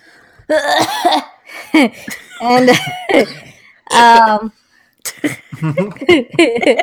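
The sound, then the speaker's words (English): Deliberate, exaggerated coughing from people, several loud voiced coughs in bursts with short gaps between them. “anytime we put a nod to it, we're going to cough.”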